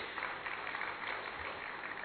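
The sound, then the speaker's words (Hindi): An audience applauds at a ceremony after a song performance, making a faint, steady wash of clapping that holds evenly throughout. “आप सब इनके लिए जोरदार तालियां बजाएं।”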